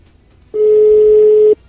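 Ringback tone of a telephone call to a business in Val di Vigezzo, waiting for an answer: one loud, steady mid-pitched tone lasting about a second, with near silence before and after.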